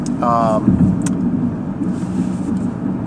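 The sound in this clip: Steady low road rumble inside a moving car, heard throughout, with a short, higher harmonic tone near the start.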